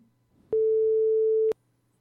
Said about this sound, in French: Tiens, d'ailleurs, on va l'appeler pour savoir comment il va.